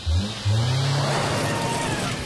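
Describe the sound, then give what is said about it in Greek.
An SUV driving on the road on Grip Master CS tyres: a steady, loud engine rumble and tyre roar with a low humming drone, broken by a brief dip near the start. “Ξέρεις, όταν οδηγώ το SUV μου, θέλω να νιώθω σίγουρος.”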